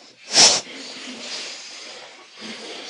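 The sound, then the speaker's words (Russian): A forceful exhalation after holding the breath: one short, loud, sharp burst of air, followed by quieter, softer breathing. “Как только чувствуем, что она подходит к концу, интенсивно выдыхаем и кулаки выносим вперед.”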